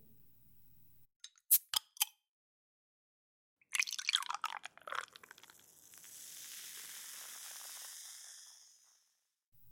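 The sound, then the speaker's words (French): Beer is poured into a glass: a few sharp clicks, then a splashing, gurgling pour that settles into a steady fizzing hiss of foam, all fairly quiet. “Bon, je vais me servir un fruit défendu. Ben quoi, c'est une bière.”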